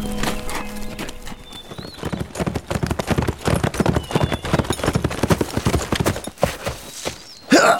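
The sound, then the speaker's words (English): Rapid hoofbeats of a horse galloping up to a house carrying a rider, many loud beats in quick succession, with a short whinny near the end. “The fella came galloping up to Horace's house a short time after Frank had ridden away.”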